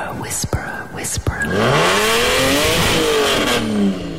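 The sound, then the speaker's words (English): A Ferrari V8 engine revving: after some whispered talk, a loud engine note climbs and holds at a high, strained pitch, then eases slightly near the end. “do you hear that? That's a Ferrari V8 right there”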